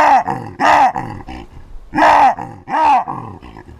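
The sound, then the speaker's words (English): A male baboon in Botswana gives loud, harsh calls to impress rivals. Each call rises and falls in a throaty arc, and several strong calls alternate with softer grunting notes. “This is the sound of a male baboon trying to impress his rivals and maybe trying to attract females.”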